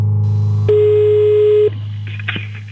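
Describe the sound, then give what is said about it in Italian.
A telephone line gives tones while a call is placed back: a steady low tone, then a sustained higher beep of about a second, followed by a few faint clicks. “Ora richiamiamo e risponderà il signor Cappella.”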